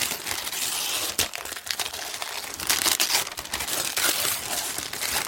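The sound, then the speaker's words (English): Wrapping paper crinkles and rustles as a gift is unwrapped, a continuous, dense crackling that runs throughout with small bursts and dips in loudness and no voices. “I'm going to unwrap it.”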